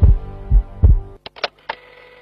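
Heartbeat: three deep, loud, low thumps within about a second, followed by a few fainter, sharper clicks.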